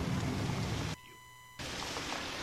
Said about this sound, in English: It was raining when we got to camp.